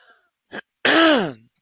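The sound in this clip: A man clears his throat: a brief, breathy huff, then a louder, longer rasping vocal clearing with a falling pitch, heard alone.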